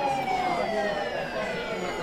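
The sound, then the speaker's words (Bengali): A police car siren sounds faintly in a market area in the evening as a crowd gathers, with a falling, wailing tone over a steady background hum. “খানিক পরে একটা পুলিশের গাড়ির horn শোনা যেতেই”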